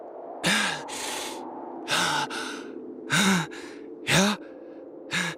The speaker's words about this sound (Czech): Já dýchám.